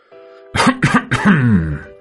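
A man coughing: a few sharp, loud coughs in quick succession, followed by a longer, throaty, rasping cough.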